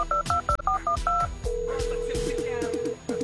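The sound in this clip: Telephone dialing tones ring out as a quick series of crisp dual-tone beeps, then a long, steady electronic tone.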